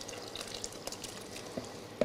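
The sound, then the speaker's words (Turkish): Boiled rice being poured into melon-seed sherbet, faint wet patters and small clicks with a sharper plop near the end. “Hafif döküyoruz bunu. Pirincimizi döküyoruz şöyle.”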